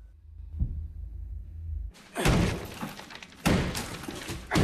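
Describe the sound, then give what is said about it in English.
A claw hammer smashes into a plasterboard wall, with a few loud crunching, cracking blows that scatter debris after a quiet low hum at the start. “He pulls out a claw hammer and starts smashing at the wall of the panic room.”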